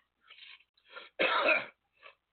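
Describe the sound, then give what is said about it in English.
Someone coughs with one loud, rough burst, preceded by a couple of softer throaty rasps and followed by a faint short one. “Oh my God, I'm over here coughing and I'm not even smoking.”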